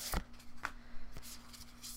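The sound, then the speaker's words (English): A tarot deck is rifled through by hand. A few soft, quick papery flicks and riffles of cards come at irregular intervals. “I would just rifle through my deck until I find the card”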